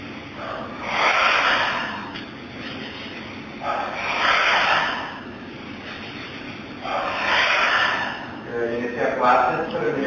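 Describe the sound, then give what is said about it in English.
Staccato breathing in a qigong practice: short stepped inhales through the nose, each followed by a forceful whooshing exhale through the mouth. The breathy bursts repeat in three rounds, fairly loud and with an even rhythm. “three rounds of the staccato breath. So we're inhaling a little step through the nose, and out all at once through the mouth. Three times.”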